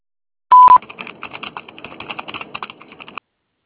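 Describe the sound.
An answering machine tone before a message: a single short, loud beep, then a run of rapid, irregular clicking and tapping. No one talks.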